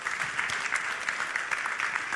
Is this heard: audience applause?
yes